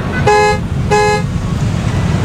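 A bus horn sounds twice before departure, two short, steady, bright tonal blasts over a constant low engine rumble.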